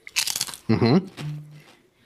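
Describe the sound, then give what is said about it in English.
A bag of honey habanero chips is torn open with a short burst of loud, crinkling, crackling plastic, followed by a brief voice and a low hum. “Give you the ASMR there of the bag opening.”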